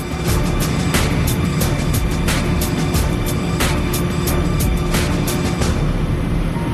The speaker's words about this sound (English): You parked a crawler. I drove a crawler.